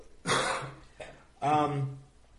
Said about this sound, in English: excuse me for coughing.